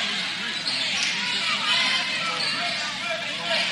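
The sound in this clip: Basketball being dribbled on the court during a women's game involving Fort Recovery, the bounces sitting under crowd hubbub and a steady commentary voice.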